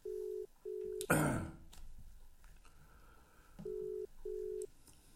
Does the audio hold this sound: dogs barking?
no